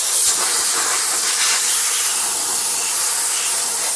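A steam cleaner hisses loudly and steadily for a few seconds, a continuous airy rush of steam with no breaks and no voices.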